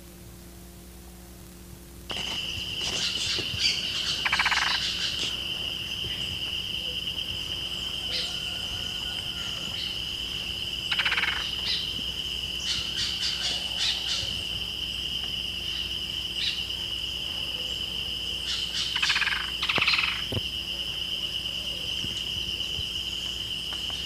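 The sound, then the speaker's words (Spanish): A yellow-faced grassquit (Tiaris olivaceus) sings near a small bush in thin, high, buzzy trills. The trills come in a few separate bursts over a steady, faint, high-pitched hum. “Siete y 11 minutos, esto es Tiaris Olivacio, cantando como a un metro al lado de un matorralcito.”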